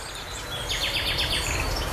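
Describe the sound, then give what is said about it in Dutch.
A nightingale sings on the Gooimeer shore at Huizen, the first of the season: a quick series of high whistled notes over a steady background hiss. “Ja, de eerste nachtegaal. Opgenomen aan de Gooimeerkust te Huizen.”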